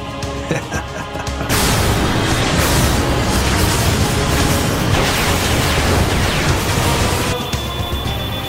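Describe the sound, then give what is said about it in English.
A fictional satellite weapon fires with a loud, sustained roaring blast that rushes on for about six seconds and then drops back to a lower, steady rumble. “Memento Mori is fully charged, sir. Get ready to fire.”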